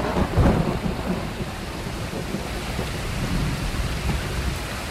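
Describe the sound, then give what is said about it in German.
Steady rainfall patters and hisses evenly throughout, with a deeper rumbling burst near the start, then continuous dense rain noise alone, with no voices. “Ein sehr vertrautes Geräusch im Jahr 2017. Wenn ihr es nicht kennt, solltet ihr mal drüber nachdenken, wieder das Haus zu verlassen. Unser Gevatter Regen.”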